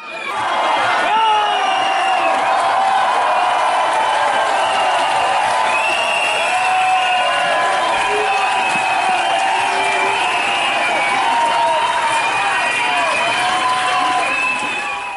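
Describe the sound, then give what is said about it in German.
A protesting crowd in a university lecture hall in Magdeburg makes a loud, sustained din of shouting and cheering voices as AfD politicians leave, with steady held tones running through the noise. “Der Protest ist einfach in der Überzahl gewesen. Als Poggenburg und Co. von dann ziehen mussten, klang das im Hörsaal so.”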